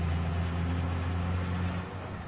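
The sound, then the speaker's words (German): A car drives through the streets of Cairo, giving a continuous low engine drone and humming rumble with steady road noise, level throughout and easing slightly near the end, with no talk. “Fahren Sie einfach ein paar Straßen rauf und runter, bitte.”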